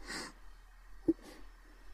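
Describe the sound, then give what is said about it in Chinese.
Soft, airy breathing close to the listener's neck: a few faint exhales with a brief snort-like click between them, quiet and intimate. “你脸别靠那么近，呼气的时候都吹到我脖子上了，痒死”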